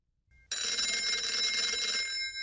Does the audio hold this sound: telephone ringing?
yes

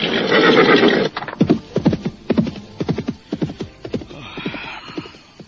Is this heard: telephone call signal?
no

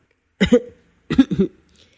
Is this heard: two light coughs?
yes

